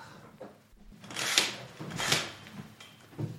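A curtain is pulled further open, giving a few soft, airy swishing rustles that swell and fade with quiet gaps between them. No voices are heard.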